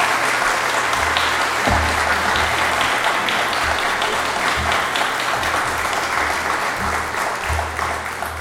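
Steady, fairly loud applause from a church audience in Portland welcoming a reverend to the pulpit, sustained throughout without a break and with no voices over it.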